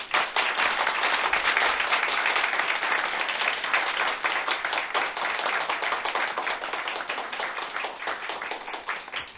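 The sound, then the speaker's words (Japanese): Sustained concert applause for a touring backing band: even, heavy clapping from many hands that stays loud throughout and thins slightly toward the end. “そしていつもツアーに付き合ってくれるビードローズにもう一回大きな拍手”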